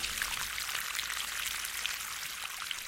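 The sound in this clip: Water pouring in a steady, continuous stream, a faint, even hiss and splash with no pauses.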